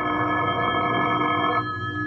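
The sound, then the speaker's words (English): A telephone rings with a bright, steady, sustained metallic tone, loud and alone, which cuts off shortly before the end. “The phone call came at 9:30.”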